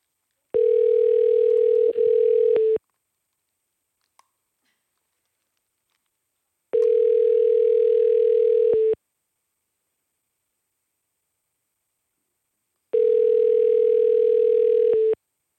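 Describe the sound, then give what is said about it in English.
Telephone ringing tone while dialing a call: three long, steady, mid-pitched rings, each about two seconds, separated by long silent gaps. “So here we go, dialing Francis up, see what happens.”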